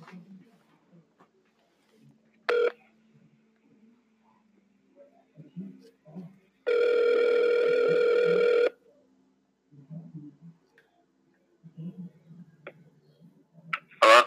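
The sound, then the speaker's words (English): Telephone ringing on an outgoing call: one long electronic ring lasting about two seconds, with quiet voices and small scattered noises before and after it. “You guys, you can hear the phone.”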